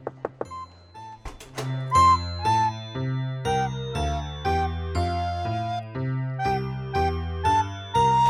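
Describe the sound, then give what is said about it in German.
Glockenspiel played by a girl in a school music class, with a teacher at the piano: a melody of struck, ringing notes in a steady rhythm, each note held briefly before the next. “Ein Mädchen hat Glockenspiel gespielt und die Lehrerin saß am Klavier.”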